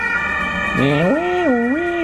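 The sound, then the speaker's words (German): An ambulance siren comes through an open window, a loud wailing tone that starts after a moment and sweeps up and down in pitch in repeated waves over a steady background hum. “Krankenwagen. Ja, ich habe Fenster offen gelassen, es tut mir leid.”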